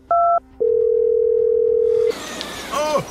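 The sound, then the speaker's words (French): A telephone dial tone sounds while a number is called. A brief higher two-note beep comes first, then a steady hum holds for about a second and a half. It cuts off into a louder burst of noisy, warbling sound. “Je vais essayer d'appeler le deuxième numéro, là.”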